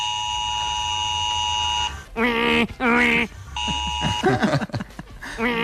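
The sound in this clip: An alarm system gives a long, steady electronic deactivation beep, pitched and buzzy. It stops as people start talking, and a second, shorter beep sounds briefly between their voices.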